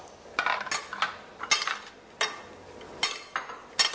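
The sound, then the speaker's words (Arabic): Two spoons toss an arugula salad, giving many light metallic clinks and scrapes in uneven clusters, fairly faint and with no talk. “دكتور هيقلب كده السلطة. قلب لي السلطة يا دكتور. ايوه طبعا، اتعلمنا في حلقة قبل كده ازاي نقلب بالمعلقتين.”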